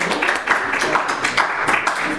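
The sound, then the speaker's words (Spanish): Applause from students in an Esperanto class at UNAM: a brief burst of dense, steady clapping lasting about two seconds. “Un aplauso, como dice Arturo, por favor.”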